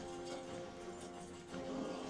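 Horse hooves clip-clop in a video game, a faint, steady run of soft clopping over a sustained tonal backdrop.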